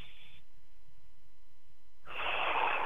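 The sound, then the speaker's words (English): Deep breathing in through the nostrils: a short airy hiss, a quiet pause, then a longer, louder rushing breath, with no speech. “one good way to start that letting go is to take some deep breaths like this”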